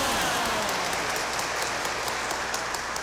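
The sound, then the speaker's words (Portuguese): Applause for the patron saint Our Lady of Fátima at a Catholic Mass: a dense, steady patter of many clapping hands that continues throughout. “e saudamos com uma forte salva de palmas a padroeira Nossa Senhora de Fátima.”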